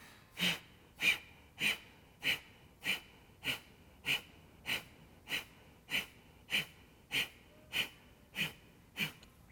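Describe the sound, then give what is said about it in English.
Forceful pranayama exhalations driven by abdominal contractions: about fifteen sharp, hissing breath bursts in an even, steady rhythm, each roughly half a second apart. “take a nice deep breath in, throw the breath out.”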